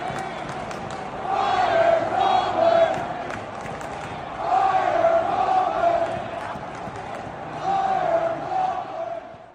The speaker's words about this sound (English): That sound was serenading from the stadium in Pittsburgh.